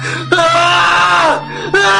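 Man screaming in anguish, a loud, strained cry that holds and then bends downward in pitch, breaks off briefly, and starts again.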